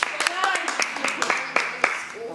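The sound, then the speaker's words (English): An audience gives a short round of applause for a volunteer. About two seconds of scattered claps sound, with a voice talking over them. “We'd like to give her a round of applause.”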